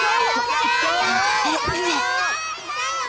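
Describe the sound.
Classmates cheer from the sidelines of a school pole-climbing relay. Several young voices shout together, loud and continuous, in bright calls that rise and fall in pitch and overlap one another.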